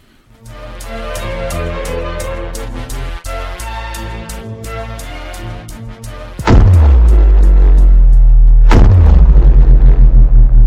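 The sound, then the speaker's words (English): Cherry bombs fired from slingshots explode: first a fast string of sharp cracks, then two loud, deep booms, each trailing off in a heavy rumble. “slingshots with cherry bombs. You don't think much of them, but God, they're loud.”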